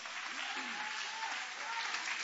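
A church audience applauds, a dense and steady wash of many hands clapping that holds at an even level throughout.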